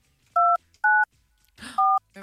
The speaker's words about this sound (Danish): Vi ringer til en, der er vigtigere. Okay. Som forhåbentlig svarer telefonen.